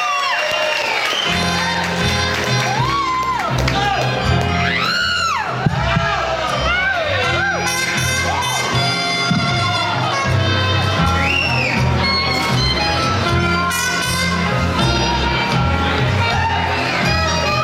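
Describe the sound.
An audience at a burlesque show cheers for a dancer with loud whoops, shouts and yells that rise and fall over a steady, sustained background, continuing without pause.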